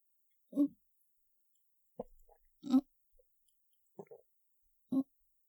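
Swallowing pills with a drink of water: five short, low gulps spaced apart with quiet pauses between them, heard alone without talk.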